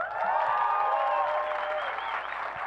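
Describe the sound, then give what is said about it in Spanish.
An audience applauds a musician at a festival panel talk in Colombia, with dense, steady clapping that holds at an even level for the whole stretch. “Un aplauso para Draco.”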